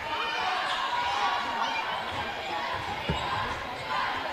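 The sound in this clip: A basketball bounces on the court during a game, with a single dull thud standing out against the steady roar of a crowd.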